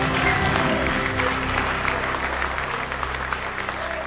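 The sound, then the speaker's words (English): Church audience clapping their hands: a continuous, dense wash of applause at a steady loud level throughout, with a low hum underneath. “Give him a hand clap if you believe him with all your heart.”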